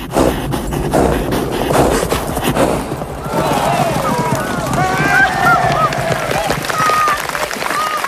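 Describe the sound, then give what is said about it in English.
A horse gallops in a race over fences, its rapid thudding hoofbeats mixed with crowd noise, and voices carry on over the second half. “Wearing a red riding hat and top, George steers Ginger towards another fence. She clears it, and they make for the winning post in the lead.”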